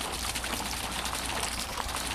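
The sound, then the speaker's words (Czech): Water burbles and splashes without pause in the Triton fountain on Náměstí Republiky, a dense, even rushing sound with no voices over it. “Voda zurčí, my jsme ušli doslova pár kroků a ocitli jsme se na náměstí Republiky, na místě, kde v dnešní době stojí kašna Tritonu.”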